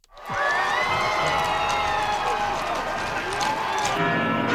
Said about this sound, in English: That's the sound of crowds in Madrid welcoming Pope Leo at the city's royal palace.